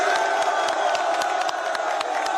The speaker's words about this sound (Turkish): Lukaku taraftarları selamladı. Tezahüratlara eşlik etti.